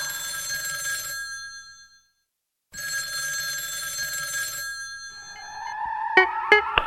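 A telephone rings for an incoming call: two long, trilling bell rings separated by a brief silence, followed by a few higher, sharper electronic tones.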